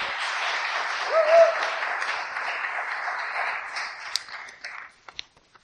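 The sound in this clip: Audience applause welcomes a speaker to the front: a dense, steady patter of clapping that thins out toward the end into a few scattered, separate claps.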